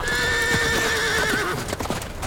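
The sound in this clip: Horses ridden away clip-clop on their hooves while one horse gives a loud, long whinny that dips slightly in pitch before fading into the steady hoofbeats.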